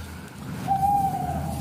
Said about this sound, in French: Voilà, voilà. La première manifestation spontanée de la chouette-ulotte.